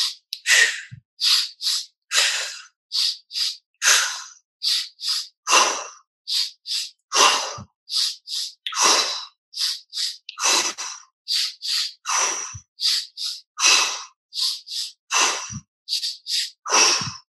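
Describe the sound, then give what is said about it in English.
Sharp, forceful inhales and exhales during a guided breathing exercise. Many short bursts of breath follow one another in a quick, fairly even rhythm, with no talking. “Then we're going to go back to that sharp, sharp inhale. Exhale out.”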